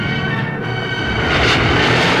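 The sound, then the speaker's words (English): Spaceship engines fire up in a science fiction sound effect, a broad steady roar that grows noticeably louder and brighter partway through and then holds at full strength. “At a safe distance, he activates the engines and heads for Bespin, home of Lando Calrissian.”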